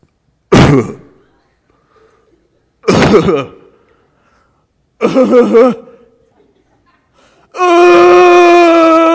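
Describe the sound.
A voice imitates a hurt child's cry. Three short sobbing bursts, separated by pauses, give way to a long, steady, high-pitched wail.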